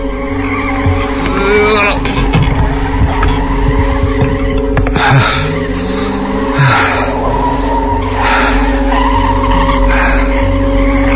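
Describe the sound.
A stuck car's engine revs hard as people push it near pine trees, its tires skidding; a loud, continuous engine drone broken by repeated rough bursts of spinning wheels.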